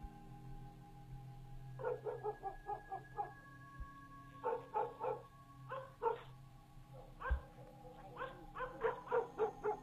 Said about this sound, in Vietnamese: Chân con chó cào cào trên mặt đất, cả người nó rùn lại, lông bờm dựng lên như là gặp phải thứ gì đáng sợ lắm. Đang nằm trong nhà nghe tiếng chó sủa, mụ Liễu